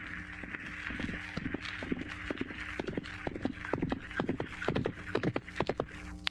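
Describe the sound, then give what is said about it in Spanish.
A horse runs off in a folk-tale drama: many quick, irregular hoof clops at a galloping pace over a steady low background. “Pues vete en el caballo corriendo. Puede que todavía lo alcances.”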